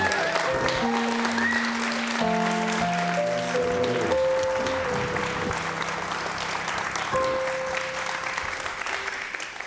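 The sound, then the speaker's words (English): Audience applause greets a guest from an Oxfam International affiliate at a live show, a dense, steady clatter of clapping that runs the whole length, with sustained tones in the first few seconds and a slight fade toward the end. “And will you please welcome Ray Offenheiser to West Coast Live.”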